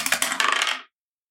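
Dice clattering as they are rolled for a tabletop roleplaying game, a quick rattle of many sharp clicks that settles and stops in under a second, followed by silence.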